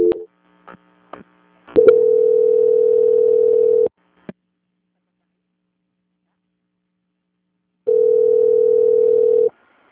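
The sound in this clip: Telephone line tone while a call is being transferred: a few brief clicks and beeps, then two long, steady, mid-pitched tones separated by several seconds of silence.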